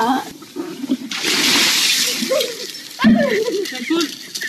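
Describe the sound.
Ice water splashes as a bucket is tipped over someone for an ice bucket challenge: a rushing, hissing pour lasting about two seconds, with people talking before and after.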